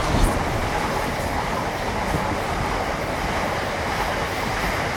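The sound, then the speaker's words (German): A moving train with another train passing in the opposite direction: a loud, steady roar of rumble and rattle that stays level throughout, with no talking. “Wumm, ein Zug in die Gegenrichtung und ein Sog zwischen den beiden.”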